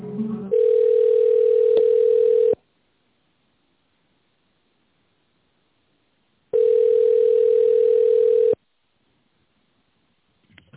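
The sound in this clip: A telephone ringing tone sounds while a call is transferred: two long, steady, even-pitched rings of about two seconds each, separated by a silent pause of roughly four seconds.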